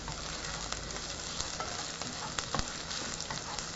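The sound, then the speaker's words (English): Whole sage leaves fry in olive oil with a steady, bright sizzle and scattered small pops and crackles, and no talking. “if you throw in whole leaves, they'll get pretty crispy in the olive oil you've got going here”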